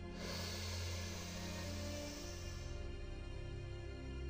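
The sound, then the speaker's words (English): A long, deep inhale during a guided relaxation exercise, a soft breathy hiss lasting about two and a half seconds over a steady, low sustained tonal background. “Take a deep breath with me. Inhale.”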